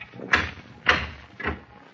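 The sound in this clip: Three evenly spaced, dull knocks on a back door, moderately loud against a faint background.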